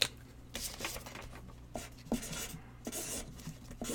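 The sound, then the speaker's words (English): Writing scratches out as someone writes down a number, many short, faint strokes in uneven bursts with no talking. “If you can guess the number that I am writing down right now.”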